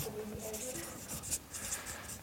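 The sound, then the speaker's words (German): Handwriting on paper: soft, scratchy strokes in short, irregular bursts, fairly quiet, with a couple of slightly louder strokes near the middle. “Die Großeltern schreibe ich jetzt nochmal hier drunter als Personen.”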